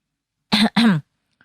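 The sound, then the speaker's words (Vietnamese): Throat clearing acted out by a voice for a boy about to start a ritual: a short two-part "ahem", made of two quick voiced bursts of similar length. It is fairly loud and heard alone. “Xong rồi, nó đằng hắng giọng nói tiếp.”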